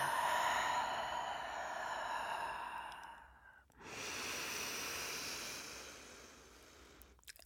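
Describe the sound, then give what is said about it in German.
Long, airy exhale letting all the air out during a seated breathing exercise, a steady rushing breath sound with a brief pause near the middle before it continues and fades. “Und erstmal lässt du die ganze Luft einfach raus.”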